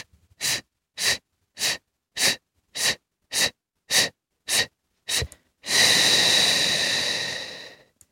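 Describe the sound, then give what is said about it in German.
Breathing-exercise demonstration: a rapid run of about nine short, sharp, evenly spaced breath bursts, followed by one long, steady, drawn-out breath lasting a couple of seconds, all clear and alone with no talk. “Ich mache es nochmal vor, einatmen. Kurz halten und dann kurze oder lange auch.”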